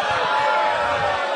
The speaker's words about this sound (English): Are you booing me or are you booing Taco Cabana?